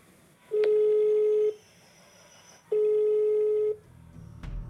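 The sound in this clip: Ringback tone of an outgoing phone call placed to a number while waiting for someone to answer: two long, steady, mid-pitched tone pulses, each about a second long, separated by a quiet gap.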